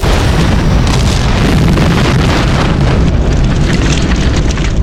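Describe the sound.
A massive explosion as time torpedoes are fired in an audio drama: a loud, dense roaring blast with deep rumble that fills the whole clip without letting up.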